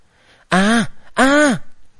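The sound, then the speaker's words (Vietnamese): Injured people groan in an audiobook drama: two loud, drawn-out voiced moans, each arching up slightly and then sliding down in pitch, with a short pause between them. “Mấy tiếng rên rỉ làm cho Kỳ Linh giật mình nhìn ra bốn phía.”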